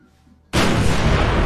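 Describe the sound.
Accidental gunshot in the submarine video game Barotrauma, a single abrupt, loud blast bursting out of near silence and followed by a sustained, heavy roar that lasts to the end.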